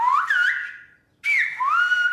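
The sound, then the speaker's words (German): Whistled language rendering the Romanian greeting for good day: two high, gliding whistled phrases with a brief silence between, the pitch rising and bending within each. “Alles, was man spricht, kann man pfeifen.”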